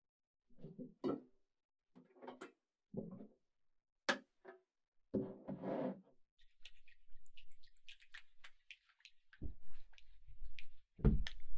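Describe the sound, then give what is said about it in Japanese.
Soft, wet squishing and dripping as orange is mixed into massage oil: a series of quiet, irregular squelches and drips with short pauses between them, and no voices. “オレンジを用意しました。あなたにぴったりだと思います。こうして混ぜてマッサージオイルにします。”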